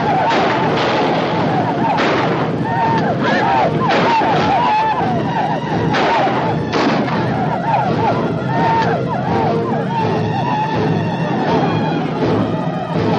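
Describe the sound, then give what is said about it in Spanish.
Gunshots in a 1956 western film, fired at retreating Comanche riders across a river. A few sharp cracks stand out over a dense, continuous clamour of shouting and commotion. “Etan dispara a los indios durante la retirada.”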